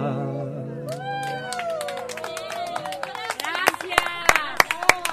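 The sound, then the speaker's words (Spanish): Audience applause for dancers at a live music show: scattered claps build beneath whooping, cheering voices, turning louder and sharper toward the end. “Un aplauso a las bailarinas acá.”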